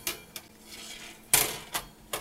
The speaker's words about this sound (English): we've got a cooling rack here that we're going to place our pan on.